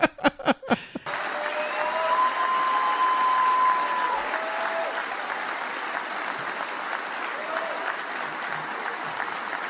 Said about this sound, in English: It's just so strange that to listen to the crowd cheering.